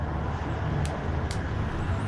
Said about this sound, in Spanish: A medio freeway. Tiene maldad. Los carros me pasan aquí por un ladito.